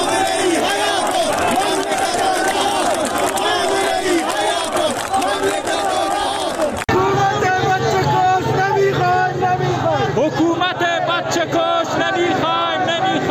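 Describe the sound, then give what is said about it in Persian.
A large protest crowd in the streets of Zahedan after Friday prayers chants loudly and continuously, a dense mass of many voices that shifts abruptly partway through to a different passage of chanting. “این صدای مردم در زاهدان در امروز بود”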